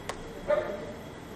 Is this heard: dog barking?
yes